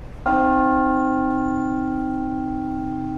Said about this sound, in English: Because they're a modern casting, all the harmonics beautifully tuned in there, and the hum goes on and on and on.